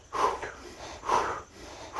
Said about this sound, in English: Now just a couple of times, breathe a little bit shorter and faster.